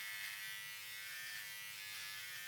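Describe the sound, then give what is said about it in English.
An electric shaver buzzes while someone shaves. The hum is constant, faint and whining, with a rich harmonic tone and no talk over it. “Yeah, I'm shaving. You wanna help?”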